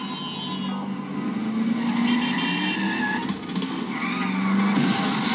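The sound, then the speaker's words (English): A car from a horror film scene skids and roars, with a steady, loud engine-and-tire wash and thin squealing tones running through it; no distinct crash impact stands out. “how clumsy can you get behind the wheel? He's like, hold on, I'm about to crash into everything.”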